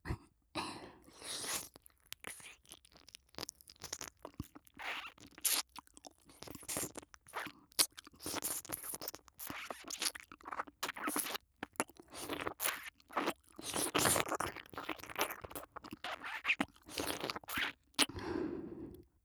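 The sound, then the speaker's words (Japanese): Scratching and crunchy scraping from ear cleaning on stubborn earwax, quiet irregular crackling bursts that come and go throughout with short gaps, no talk. “なかなかこの耳かす頑固で取れませんね。”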